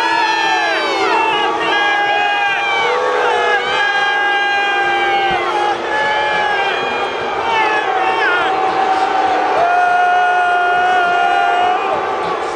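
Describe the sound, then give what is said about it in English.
An NFL stadium crowd boos commissioner Roger Goodell as he walks onto the field before the 2017 season opener, a loud, sustained wall of jeering voices with shouts that stays strong throughout. “And that is what it sounds like when the commissioner of the National Football League comes on the field to a place where he is more than mildly disliked.”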